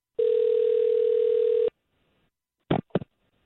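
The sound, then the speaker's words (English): A telephone dial tone hums steadily and loudly for about a second and a half as a call is placed, then stops. After a short silence, two brief keypad beeps follow. “We'll call him and see if we can't get him on the line.”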